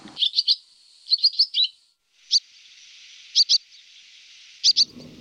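Sparrow chirping on a branch: short, high chirps in quick clusters separated by brief pauses, clear over a faint steady hiss.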